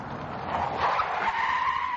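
Tires skid and squeal as an army car brakes to a stop in snowy terrain, a sustained harsh hiss that grows slightly louder over about two seconds.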